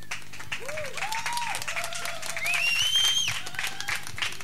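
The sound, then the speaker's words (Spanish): Applause from a crowd at an open-day street gathering outside a squatted social centre: steady clapping of many hands, fairly even in loudness, with a few high, wavering calls rising above it. “¿Le damos otra? Venga, pues. Un aplauso.”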